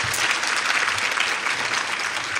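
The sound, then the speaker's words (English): Steady audience applause at a women's event, a dense wash of many clapping hands holding an even loudness from start to finish with no single voice standing out. “So give yourselves a round of applause for taking care of yourselves.”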